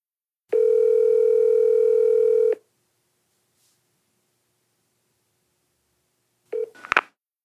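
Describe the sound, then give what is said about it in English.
Telephone dialing a business line: a steady, loud dial tone holds for about two seconds, then silence, then a brief cluster of dialing tones and clicks at the end. “You have her business line, right? Yeah. I'll dial her.”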